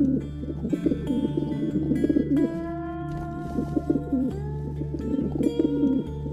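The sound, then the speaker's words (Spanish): Pigeons cooing at dusk near an old house among dense pines in the deep South, with low, repeated coos running steadily over a sustained droning background. “La casa Blassenville, donde al atardecer las palomas vuelven del infierno”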